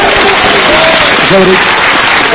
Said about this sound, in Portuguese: Quem pode aplaudir ao Senhor Jesus?